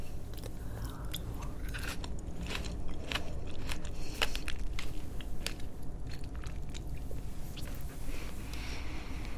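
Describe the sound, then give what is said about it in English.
Quiet chewing of an organic raspberry: soft, wet munching with many small crunchy clicks and bites, faint and without talk. “Just gonna eat a raspberry.”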